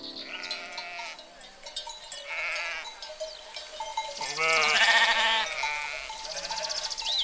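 Goats bleat on a hot day, many wavering calls of varying pitch overlapping and repeating throughout, over a steady tonal background.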